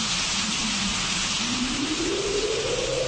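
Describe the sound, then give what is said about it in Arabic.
Rain falls outside as a steady, even hiss that holds without a break. Beneath it, a faint low hum slowly rises in pitch. “كل اللي كان سامعه هو صوت المطر اللي جاي من بره.”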